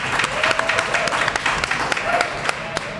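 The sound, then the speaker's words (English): A studio audience applauds and cheers in a dense, steady wash of clapping, with sharper individual claps popping out above the continuous crowd noise. “Make some noise one more time for Tyus Bowser and Justin Houston.”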